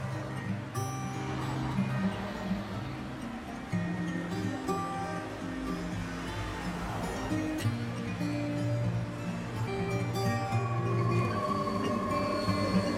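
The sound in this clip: A subway train rumbles steadily and loudly as a woman boards the metro in the evening, a dense, continuous roar of rolling wheels and car noise that holds at an even level throughout.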